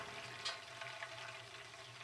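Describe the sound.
Hot water being stirred into a brewing grain mash for beer, making a steady, soft watery swishing and fizzing hiss with small splashy accents, with no voices.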